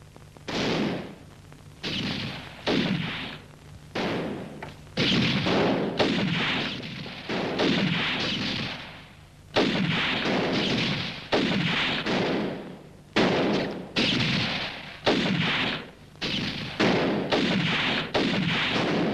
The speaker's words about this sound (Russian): Купи сам себе патроны и стреляй.